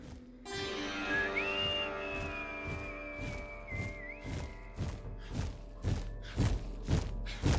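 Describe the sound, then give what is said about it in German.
A man whistles cheerfully while walking away toward a tunnel exit. A single bright whistled note rises and holds for about three seconds over many evenly spaced footsteps, which keep thudding after the whistling stops. “Dann drehte er sich um und ging fröhlich pfeifend Richtung Tunnelausgang.”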